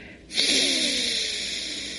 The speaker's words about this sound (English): And now you're going to inhale through your right side, close it, and exhale through the left.